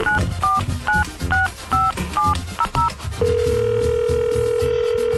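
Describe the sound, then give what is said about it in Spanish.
Touch-tone dialing of a telephone number for a radio call-in ticket giveaway: a rapid run of short two-tone beeps, then a steady continuous tone that lasts to the end. “Pues marquémosle, a ver si este sí contesta, oye.”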